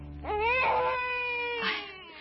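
A newborn baby cries in a thin, high, harmonic wail that rises at the start, holds, and swells into a second cry near the end.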